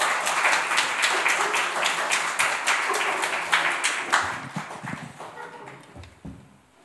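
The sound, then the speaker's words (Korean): A church audience applauds during a Sunday worship service: many hands clap densely and loudly, then the clapping thins out and fades away over the last two seconds. “여러분 사랑과 우리 존경의 박수를 함께 좀 드렸으면 좋겠습니다.”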